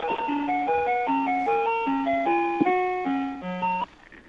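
Ragtime melody heard over a telephone line, thin and narrow in tone, with steady, bouncing tinkling notes that stop abruptly near the end.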